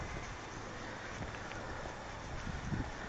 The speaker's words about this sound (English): I suspect the wind is making this recording even worse than usual, so I guess I'll shut it for a while.